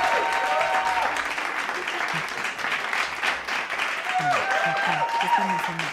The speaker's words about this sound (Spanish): Ahí va tu porra porque bien merecida. Y yo te aplaudo